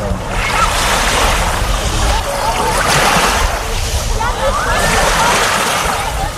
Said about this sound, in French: Voilà, ambiance de plage que vous aurez peut-être la chance de connaître cet été